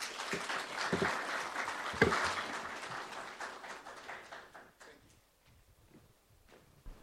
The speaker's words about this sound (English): Well, we're putting our hands together for our president.